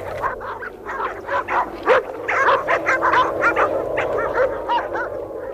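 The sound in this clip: Several dogs whine and yelp, glad that someone has come to the house, giving many quick, high, whimpering cries that overlap above a low steady background.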